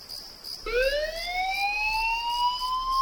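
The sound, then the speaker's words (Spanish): An emergency alert siren from the island fire brigade sounds in the early hours; its loud wailing tone with bright overtones kicks in suddenly and climbs steadily in pitch, holding strong to the end. “Son las 4 de la madrugada. Suena un aviso.”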